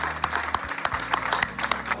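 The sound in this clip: Audience applause given in tribute to a man's work: fairly quiet, distinct claps patter steadily over a low, constant hum, with no speech on top.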